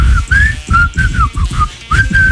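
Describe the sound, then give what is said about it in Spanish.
A short whistled tune, the 1996 intro of a TV entertainment and gossip show, plays as a series of clear, bright notes that glide and bend in pitch, with brief gaps between phrases. “el verdadero intro de Ventaneando de 1996 era un chiflidito que sea”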